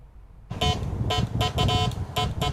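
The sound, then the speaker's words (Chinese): Telegraph beeping from a 1970s telegraph control box on a home balcony: several bursts of tonal beeps in an irregular rhythm over a steady noisy background. “一大早，杨建明家的阳台上传来了电报的滴滴声，这是一台70年代的发报控制箱。”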